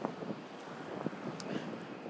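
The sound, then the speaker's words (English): Wind buffets a microphone outdoors on a street, a gusty, irregular rumble with a few sharper thumps rising out of a steady low roar. “Ooh, breezy. Not a good way for recording.”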